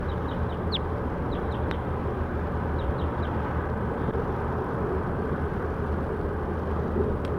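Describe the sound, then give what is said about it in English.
Faint high bird chirps come in short clusters of two or three over a loud, steady rumbling background noise. The calls stop after the first few seconds while the rumble continues. “Recording bird 7-1.”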